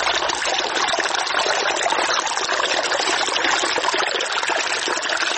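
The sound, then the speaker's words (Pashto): A small river runs beside a visitors' spot at Sanglakh near Kabul. Its water rushes in a steady, unbroken hiss at an even loudness throughout, with no voices. “د بیلابیلو سیلانیانو کوربا سنگلاخ په خپل څنګ کې یو کوچنی سیند هم لري چې سیلانیان ورڅخه زیات خوند اخلي”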